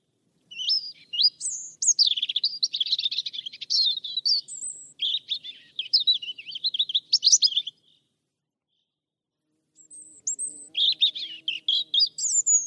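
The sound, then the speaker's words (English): A European robin calls with a rapid, high-pitched stream of thin chirps and warbling notes in loose phrases, pausing briefly before resuming with a few more quick twittering bursts. “Here's the call of the European robin.”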